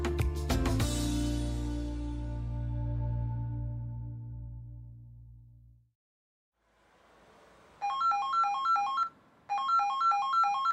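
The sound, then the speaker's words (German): A telephone rings in two bursts of a bright, warbling electronic ringtone, fairly loud. A long, swelling musical chord fades out first, followed by a brief pause before the ringing. “Heike, gehst du mal ran? Ich hab Rasierschaum im Gesicht.”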